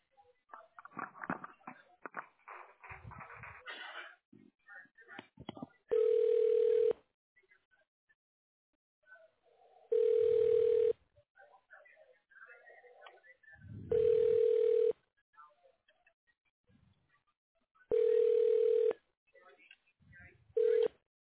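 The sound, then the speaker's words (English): A phone rings out while a call is transferred to voicemail: four evenly spaced buzzing ring tones about four seconds apart, steady in pitch, with talk at the start and faint voices between the rings. “I can transfer you to his voicemail.”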